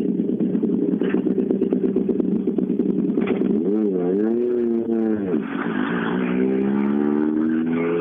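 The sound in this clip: A race car with a damaged rear bumper pulling away, its engine droning steadily, then its pitch wavering up and down midway before settling into a rising rev, while commentators talk over it.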